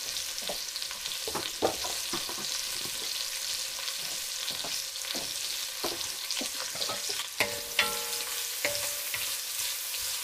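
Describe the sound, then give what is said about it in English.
Onion slices sizzle and fry steadily in a pan while being stirred, with a few louder scraping and clattering stirs cutting through the constant, bright crackle of hot oil. “I'm giving it a bit of a stir to break up the onion slices.”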